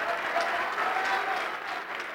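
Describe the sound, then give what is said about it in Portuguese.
A church audience applauds during an altar call, with thick, continuous clapping. It stays loud and steady for the whole brief moment, with no pause or swell. “Vamos aplaudir mais, está chegando mais.”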